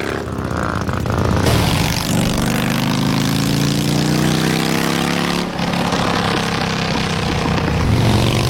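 A motorcycle being ridden with an open exhaust pipe and the muffler removed gives a loud, continuous, rasping engine drone. Its pitch climbs slowly, dips briefly, then carries on steadily.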